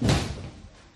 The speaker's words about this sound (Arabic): أغلق الباب.